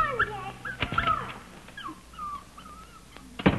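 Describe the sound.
A dog whimpers and whines in a few thin, high, wavering cries, with brief faint yips between them; no one speaks.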